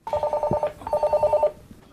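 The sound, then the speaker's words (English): A telephone rings at the reception of a family carrot farm business in Yorkshire, sounding two bursts of rapid, mid-pitched electronic trilling separated by a short gap, loud and clear. “Answering the phone and greeting visitors”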